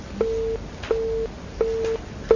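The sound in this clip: A telephone line's disconnected tone during a radio call-in: four short, steady low beeps at an even rhythm separated by quiet gaps, the last one cut off.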